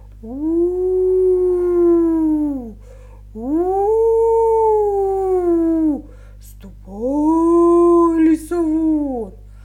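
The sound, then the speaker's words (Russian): A wolf at a hut howls three long, drawn-out times, each steady, tonal and sustained for a couple of seconds with short gaps between, loud and alone. “Подбежал волк к избе и завыл страшным голосом:”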